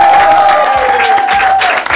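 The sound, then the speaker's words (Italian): Applause from a studio audience: a dense, steady wash of clapping that holds at an even, loud level for about two seconds, with a thin sustained tone running through it. “questa è Radio Dinamo, siete stati ganzi, bravi, fatemi un applauso, un applauso.”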